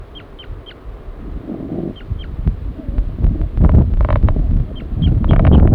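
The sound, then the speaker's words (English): Short, high chirping flight calls from a male bird leaving its nest, given in a few quick clusters over a steady rumble of wind and low noise. “Male? Giving flight calls? Coming off the nest.”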